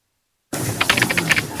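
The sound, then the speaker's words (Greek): Rapid typing on a computer keyboard: a fast, uneven run of many sharp, clicky keystrokes over a steady background hiss, starting abruptly after a short silence. “Πιέζεις ακατάπαστα το πληκτρολόγιο.”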